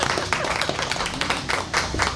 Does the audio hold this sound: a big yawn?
no